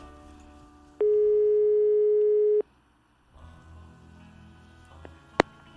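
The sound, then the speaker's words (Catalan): Ringback tone of an outgoing telephone call: one steady, mid-pitched tone lasting about a second and a half, then a pause of low background hum and a sharp click near the end. “ara anem a trucar amb ell”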